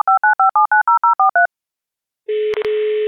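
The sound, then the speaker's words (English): Touch-tone telephone dialing to call in a guest: about ten quick keypad beeps in a steady rhythm, then a short silence and a sustained ringing tone with brief interruptions, all without talk. “So I think without further ado, let's dial in. Let's get him on.”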